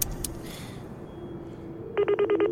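A telephone rings in a quick burst of about six rapid, buzzing pulses at a steady pitch, starting after a stretch of low background hum with a couple of faint clicks at the start.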